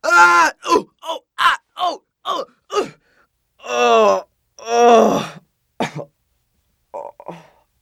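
Human groaning: a quick run of short, pained grunts and moans, then two long drawn-out groans, followed by a few faint trailing moans.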